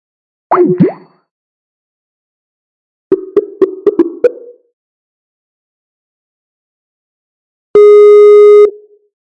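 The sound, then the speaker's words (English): Skype call tones sound while the connection is cut and reconnected. A short plopping tone comes first, then a quick run of about five clicking blips, then one steady electronic tone held for about a second. Silence falls between the sounds. “With Skype. I'm just going to cut the connection and then reconnect immediately.”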